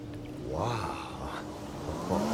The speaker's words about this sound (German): Da kommt ein Auto die Auffahrt hoch.